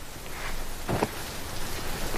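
Rain falls in a steady, even hiss with a brief soft knock near the middle, no voices.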